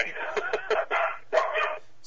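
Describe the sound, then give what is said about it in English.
A dog barks during a phone call, giving a quick run of sharp, high yips and barks in several bursts, with talk mixed in. “Dog alert.”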